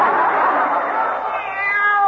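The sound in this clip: Minerva the cat gives a drawn-out, wavering meow near a Christmas tree. The meow is sustained and fairly loud, and its pitch holds steady before sliding into thinner tones at the end.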